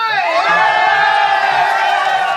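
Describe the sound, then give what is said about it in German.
Loud cheering and shouting from rescue teams celebrating after 13 people missing for nine days in a flooded cave are found. Raised voices blend into a dense, sustained roar that holds steady throughout. “Die 13 Vermissten sind gefunden, nach 9 Tagen in einer überfluteten Höhle. Jubel bricht aus unter den Rettungsmannschaften.”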